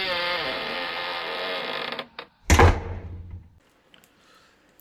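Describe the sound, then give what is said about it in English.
A key turns in a lock and a door opens: a brief click, then a heavy, loud clunk that fades into a short rattle, after a steady humming background that cuts off. “Open it then. I'm trying. Well, get the key. I am using the key. Got the one. Yeah, there we go.”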